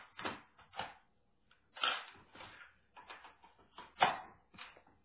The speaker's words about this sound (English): let me flip this tape.